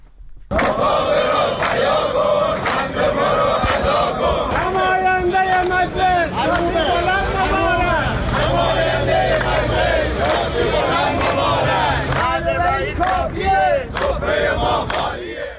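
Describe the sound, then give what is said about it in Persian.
Loud crowd chanting by protesters at rallies in Iranian provinces, including Khuzestan, Kermanshah, Markazi and Lorestan, where retirees shouted slogans. Massed voices hold a continuous, rhythmic roar throughout. “در این تجمعات که از جمله در استانهای خوزستان، کرمانشاه، مرکزی و لرستان برگزار شد، معترضان شعارهایی از قبیل نماینده مجلس شاسی بلند مبارک سر دادند.”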